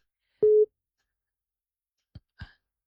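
A single steady beep of a telephone busy tone sounds after a call drops over a bad network connection. Two brief, faint clicks follow after a long silence.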